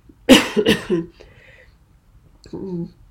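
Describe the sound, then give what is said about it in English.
Two quick, harsh coughs in close succession from an adult, followed by a short stretch of quiet talk. “my cough may be telltale there”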